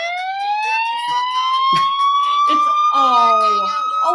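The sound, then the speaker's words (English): A siren effect wails inside a Hispanic song: a bright, steady tone climbs slowly through the first half and then holds high, while voices and other parts of the song sit underneath it. “That's how you could tell it's a good Hispanic song, when you hear the sirens.”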